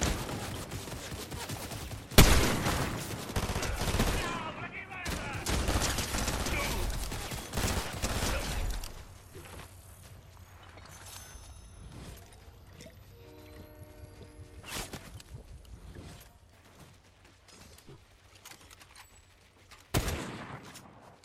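Gunfire in a ranked solo match of a shooter video game: dense, rapid bursts of shots for the first stretch, then quieter with only scattered reports, and one sharp shot near the end.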